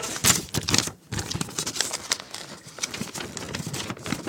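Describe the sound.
An envelope is opened, with crinkling, tearing paper and quick handling noises coming in short bursts. There is a brief pause after about a second, then steadier rustling follows.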